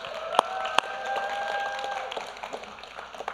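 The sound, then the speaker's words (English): An audience gives a round of applause as a high-school senior is introduced, with moderate, steady clapping, a couple of sharp claps early on, and a high whistling tone over the clapping. “Let's give a big round of applause for”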